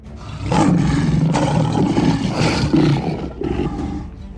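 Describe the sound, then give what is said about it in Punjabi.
Two fearsome lions roar inside a royal sleeping chamber of a great fort in Delhi, a deep, loud, rumbling roar that holds almost unbroken through the whole clip, swelling in several surges. “वो दो भयानक शेर शाही सोन वाले कमरे विच दाखिल हो गए।”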